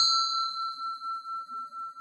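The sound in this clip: A mobile phone message notification ding: one bright, clear chime that rings on alone with a steady pulsing shimmer as it slowly fades.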